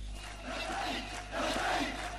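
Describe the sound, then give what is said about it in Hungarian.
A large crowd cheering the rebel army near Homs, Syria: a dense, sustained roar of many voices chanting and shouting together, swelling in loudness toward the end. “Hatalmas tömeg élteti a szíriai szabad hadsereget Homstól nem messze.”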